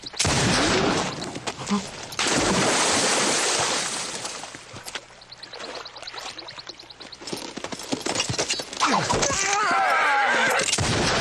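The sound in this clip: Gunfire rings out in a shootout from a Portuguese-dubbed film, with many sharp, loud shots in rapid bursts. The shooting eases in the middle before picking up again, and voices shout through it.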